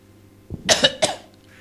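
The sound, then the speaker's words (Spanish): A person coughs in a corner of a room, giving a short cluster of harsh, moderately loud coughs with no talk around them. “Me está tosiendo, pero se puso en una esquina a toser.”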